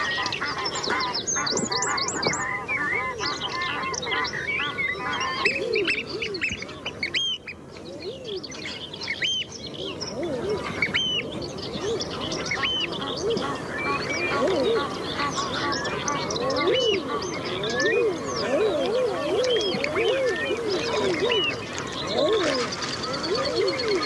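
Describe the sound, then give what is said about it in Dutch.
Birds wake and call at dawn on Texel, a dense, continuous chorus of quacking ducks, honking geese and higher chirps that overlap steadily throughout. “Nou, zijn vogels worden ook wakker.”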